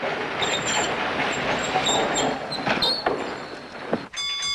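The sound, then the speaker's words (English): A trolley train slows to a stop: a rolling rumble with clattering wheels and thin, high-pitched squeals that flicker on and off above it. “As the trolley slows to a stop, the young blonde woman stands up.”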